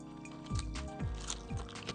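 Crisp crunching as someone bites into a fresh, green-scented vegetable: three faint crunchy bites about half a second apart, with soft chewing between them.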